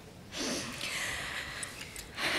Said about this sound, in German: Tief ein- und ausatmen. Nochmal.